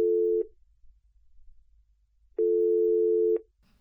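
A telephone ringing on an outgoing call: two steady, buzzing ringback tones separated by silence, the first cut short at the start and the second lasting about a second, with a brief faint sound at the end.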